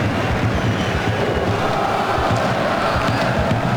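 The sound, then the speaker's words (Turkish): Stadium crowd at the Fortuna Arena in Prague during a football match, a dense, continuous roar of many voices applauding a player, steady in level without clear peaks. “Prag'da alkışlar adam Loşek'e.”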